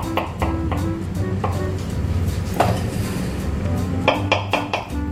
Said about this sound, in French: Je vais commencer par couper mes pommes de terre. Donc vous voyez, pas des morceaux trop fins.